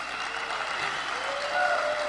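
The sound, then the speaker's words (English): Audience applause at the LaBitconf 2021 Bitcoin conference: a steady, dense wash of clapping from many hands that swells slightly toward the end. “huge round of applause for El Salvador for being the pioneer”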